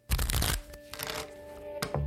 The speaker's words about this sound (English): This is not your ordinary deck of playing cards.